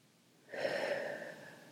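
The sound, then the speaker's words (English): A single deep breath out during a relaxation exercise: a soft, breathy rush of air that starts after a short quiet moment, peaks quickly and then slowly fades. It is faint and heard alone. “let's just take another nice deep breath. And as you breathe out,”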